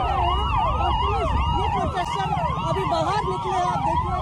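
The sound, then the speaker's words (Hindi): Police sirens wail together at a city intersection in Delhi during a protest. Several overlapping sweeps rise and fall continuously, loud throughout, over a low traffic rumble. “कर्तव्य पथ का चौराहा है जहां आपको सिर्फ police के siren सुनाई देंगे”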